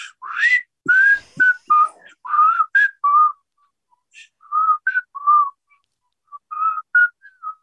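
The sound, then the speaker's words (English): A song's melody is whistled in clear, bright pitched phrases that glide and waver, set in short runs separated by silent pauses, with no talking. “It's like, even down to the whistle, everything about that song.”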